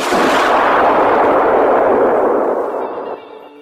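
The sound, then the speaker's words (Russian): Explosions from an RPG round and an under-barrel grenade launcher blend into one loud, dense blast roar that holds for about three seconds and then fades away. “Раздалось два мощных оглушительных взрыва, а за ним еще один, еще более мощный и оглушительный.”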